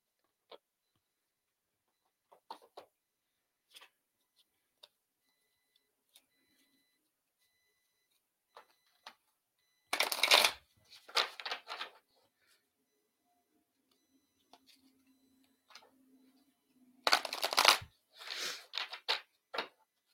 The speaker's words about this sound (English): Let's pull you a couple of cards too, Sherry. I'm going to do the same deck I used for Trish.